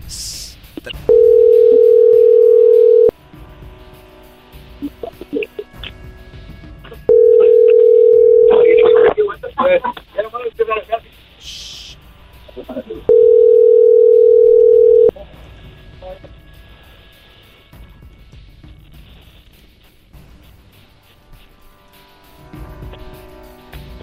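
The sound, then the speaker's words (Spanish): A telephone call rings unanswered: three long, steady ringback tones of about two seconds each, evenly spaced, with voices and scattered noise in the gaps between them. “Vamos a marcar otro lado, otro lado, otro lado. No contestaron ahí.”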